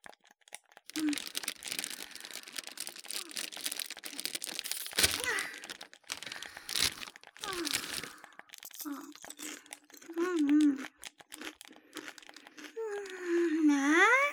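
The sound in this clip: Crinkling of a potato-chip bag and crunchy chewing of chips: a dense run of rustles, cracks and crunches over many seconds, then a voice making drawn-out voiced sounds near the end.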